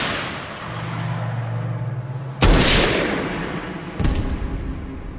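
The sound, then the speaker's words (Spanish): Two gunshots fired at close range into a man's head at a house entrance: two abrupt loud bangs about one and a half seconds apart, the first with a long rumbling tail, over a constant noisy background. “un hombre apareció por detrás y, sin darle tiempo de saber lo que estaba ocurriendo, le disparó dos veces en la parte posterior de la cabeza”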